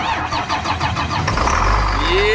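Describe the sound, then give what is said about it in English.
A 2003 Blue Bird school bus engine starts: rough, rapid cranking chugs for over a second, then the engine catches and roars into a loud idle with a rising whine. “We don't know much about this school bus. This is where the engine is. Disabled remote engine start.”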